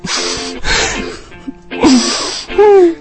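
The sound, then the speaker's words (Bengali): A man cries in a series of breathy sobbing bursts separated by short pauses, ending in strained, wavering wails that grow louder toward the end. “কাঁদছো কেন? মুই তো আম্মের জন্য আর পিসির জন্য কাঁদতে আছি।”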